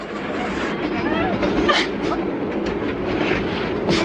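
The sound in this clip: A train carriage rolls along the rails with a steady rumble and a rhythmic clickety-clack of wheels, holding at a moderate level throughout.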